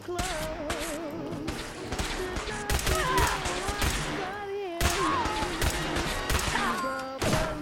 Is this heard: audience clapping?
no

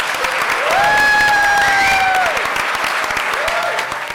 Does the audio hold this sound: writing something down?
no

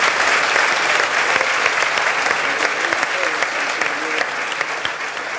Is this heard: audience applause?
yes

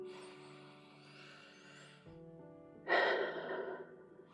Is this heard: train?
no

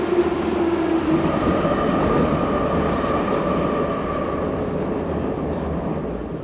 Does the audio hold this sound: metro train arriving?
yes

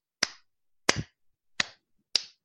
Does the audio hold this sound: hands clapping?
yes

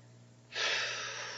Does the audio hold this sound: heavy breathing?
yes

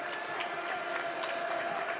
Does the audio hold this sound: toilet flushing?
no

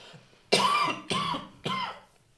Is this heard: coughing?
yes

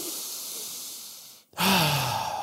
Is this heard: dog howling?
no

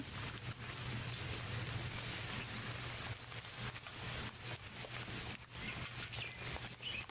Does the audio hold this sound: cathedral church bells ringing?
no

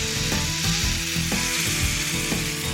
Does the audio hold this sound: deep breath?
no

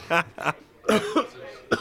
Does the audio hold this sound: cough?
yes

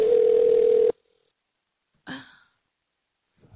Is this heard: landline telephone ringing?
yes

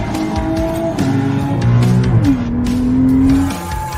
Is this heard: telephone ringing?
no

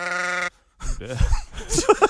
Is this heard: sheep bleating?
yes

